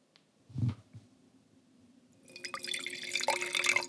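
Sicilian Nero d'Avola red wine poured into glasses: a dull bump, a quiet pause, then a continuous splashing, gurgling pour that fills the second half, without talk.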